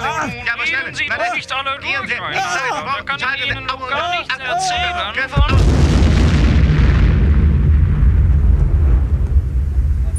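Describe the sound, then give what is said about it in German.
Bomb exploding in a comedy sketch: hurried, agitated voices talk over one another, then a sudden loud blast cuts in about halfway and swells into a long, dense rumbling roar that lasts to the end. “Aber wir haben nur noch 5 Sekunden! Schnell, die Bombe!”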